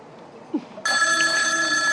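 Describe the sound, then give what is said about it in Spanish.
A telephone rings with a steady electronic tone that starts partway through and holds to the end, preceded by a short soft sound. “Ahí la mina empieza a llamarlo por teléfono, a atomizarlo.”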